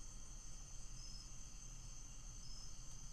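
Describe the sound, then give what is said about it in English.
Insects chirping in a steady, continuous high-pitched trill with a faint buzzing hiss beneath, quiet and unbroken throughout, with no voices. “I wonder if they can hear the insects. I'm sure they can hear the insects.”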